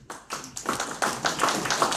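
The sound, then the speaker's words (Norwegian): Audience applause at a gathering: many hands clap in a dense, steady patter that builds slightly and stays moderately loud throughout. “Vi kjører til en klapp,”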